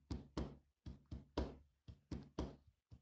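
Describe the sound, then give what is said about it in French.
A she-wolf's heartbeat rendered as dull, regular thumping: a steady series of soft, muffled knocks, some falling in loose pairs, heard alone without talk. “On peut maintenant entendre un bruit sourd et régulier qui vient du fond des temps. C'est le battement du cœur de la louve.”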